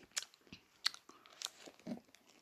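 Crunchy chewing of a chocolate bar with a crispy top, caramel underneath and a chocolate coating: a few distinct crisp crunches separated by quieter, moist chewing, fairly faint and with no talk.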